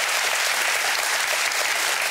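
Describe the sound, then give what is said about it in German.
Studio audience applause on a German entertainment show, a short stretch of dense, uniform clapping at steady volume with no voices over it. “Schicken Sie ihm mal einen großen Applaus. Ja. Einmal zu Michael Thürner nach Hause. Michi, das ist dein Applaus.”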